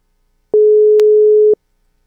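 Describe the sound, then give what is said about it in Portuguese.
A single steady telephone call tone sounds once for about one second while a call is being placed to someone. It is clear and even, with silence before and after. “Pera aí, deixa eu ligar pro Davi aqui, rapidinho.”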